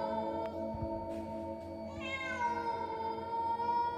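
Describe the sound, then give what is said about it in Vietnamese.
A neighbour's cat meows beside a house in one continuous, drawn-out yowl that swells into a stronger, wavering wail midway. The level stays steady and no one talks. “Đồng thời lúc này tiếng con mèo nhà hàng xóm nó cứ ngoeo ngoao kêu ở bên hông nhà.”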